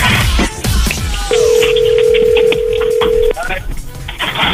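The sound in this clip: On an unanswered telephone call, a single steady ringback tone holds for about two seconds at an even pitch, heard under busy ongoing talk.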